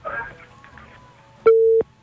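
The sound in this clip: A telephone busy tone follows a cut line: a single steady, mid-pitched beep lasting under half a second, clearly louder than the brief, faint speech before it.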